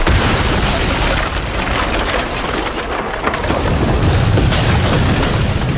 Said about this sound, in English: Yes, and you have your amazing exploding snow globes.